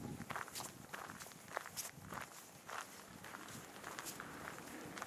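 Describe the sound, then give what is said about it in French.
Footsteps walk through the Rambouillet forest in a steady rhythm, each step a soft, crunchy scuff, many in a row at moderate loudness. “Me voilà donc en train de marcher dans la forêt de Rambouillet.”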